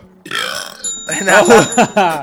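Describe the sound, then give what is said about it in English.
A few loud, voiced belches in quick succession, each drawn out and gurgling, with uneven pitch and loudness. “Synchronize your belches. Speaking of synchronized, start your belches.”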